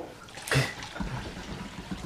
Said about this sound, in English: I can hear that pour up in the motherfucking mic.